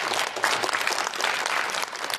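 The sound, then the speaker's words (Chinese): An audience applauds as two young performers take the stage for a xiangsheng comedy act: a full, dense round of clapping that stays strong and steady throughout. “谢谢您各位的掌声， 谢谢大家。”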